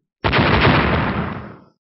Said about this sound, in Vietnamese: Một tiếng nổ đùng kịch liệt vang lên, hai đạo hào quang cùng lúc chấn động, nổ lên tạo thành một làn sóng linh khí to lớn hơn cả